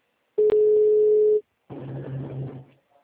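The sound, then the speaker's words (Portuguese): A telephone ringback tone sounds while a caller waits for an answer: one steady, mid-pitched ring lasting about a second, then a short pause and low, muffled line noise. “Jurava que tinha atendido, tá chamando”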